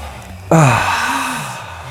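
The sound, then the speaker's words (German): A deep breath is taken during a breathing exercise: one sudden, loud sighing exhale with a voiced tone that drops in pitch and then trails off slowly. “Tief ein und wieder ausatmen.”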